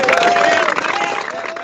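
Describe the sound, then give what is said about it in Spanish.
Applause and crowd noise at an awards ceremony for an international sports tournament: a dense, loud clatter of clapping that holds steady for under two seconds, with a faint whistle-like tone running through it. “Sintámonos, muchachos, contentos y un aplauso para todos nosotros.”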